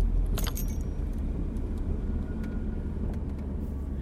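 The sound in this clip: An old car's engine running with a steady low rumble from start to finish, with keys jangling briefly near the beginning.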